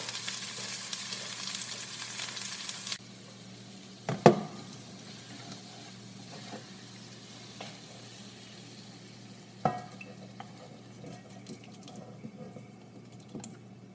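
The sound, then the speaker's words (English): A spoon scraping food from a sizzling pan while plating, with a faint steady sizzle and a couple of sharper, louder scrapes standing out. “Oh, I hear a spoon. Something scraping.”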